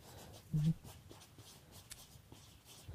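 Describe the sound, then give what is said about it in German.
Handwriting on paper as two items are jotted down: faint, scratchy pen strokes with a brief low thump near the start. “Ich schreibe zwei Sachen auf.”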